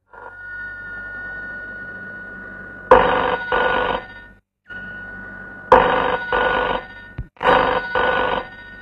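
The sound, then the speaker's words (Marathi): A telephone rings in repeated double bursts, three pairs of loud, buzzy bell rings separated by pauses, after a faint steady tone. “निश्चित दाशाचाच phone असणार, तो तिथे वाट पाहत असणार.”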